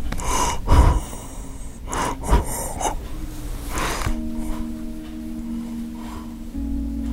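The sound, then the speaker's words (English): Labored, gasping breaths of a dying 94-year-old man with end-stage congestive heart failure, at his bedside in a nursing home just after midnight; a few rough intakes of breath, then quieter breathing over a steady low hum. “You can probably hear him breathing here in the background.”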